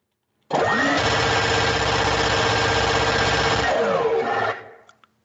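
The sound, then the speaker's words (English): A minigun spinning up as a sound effect: a loud, dense mechanical whir that starts abruptly and climbs in pitch, holds steady for about three seconds, then winds down in pitch and fades, followed by a couple of faint clicks. “So I am going to spin up the old minigun to cue up our rapid fire segment.”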